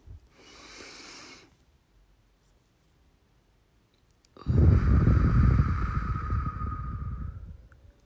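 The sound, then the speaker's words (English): A long, forceful breath drawn in through the nose rushes and hisses for about three seconds with a faint whistling edge. A shorter, softer breath sound comes earlier, followed by a quiet pause. “So ready? Okay. Breathe in through your nose.”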